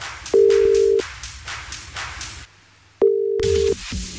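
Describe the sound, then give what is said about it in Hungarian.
An outgoing telephone call rings out, giving two steady mid-pitched ringback tones of under a second each, separated by a pause of about two seconds. “Aki elsőként küldött nekünk üzenetet a felhívás után, őt csörgetem most.”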